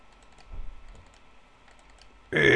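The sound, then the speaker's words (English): Faint computer mouse clicks as database fields are double-clicked, quick soft taps falling in a few small clusters. “I'm just double clicking on the fields as I go.”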